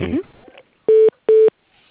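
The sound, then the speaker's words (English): A telephone call being transferred to voicemail: two identical steady electronic beeps, each about a fifth of a second long with a short gap between them, following a brief bit of speech. “Let me just transfer you to his voicemail.”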